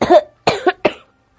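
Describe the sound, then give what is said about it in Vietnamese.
A man coughs repeatedly: a quick run of harsh, loud coughing bursts packed into about a second, each cut off sharply, followed by silence. “Lời còn chưa dứt, Kỷ Việt đã ho liên tục, hắn khốn khổ cong lưng, khuỷu tay chống trên đầu gối, toàn bộ thân mình chấn động theo tiếng ho”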